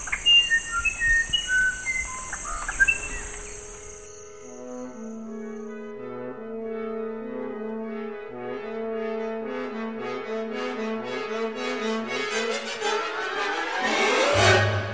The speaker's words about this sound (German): Das ist das Original. Und beim zweiten Mal lässt der Vogel in der Mitte einfach eine Note aus.